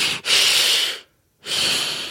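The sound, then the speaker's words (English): Heavy breathing into a brown paper bag: two long, loud, rushing breaths separated by a short silence, with a brief breath sound at the very start and no talk. “You get a brown paper bag and you go.”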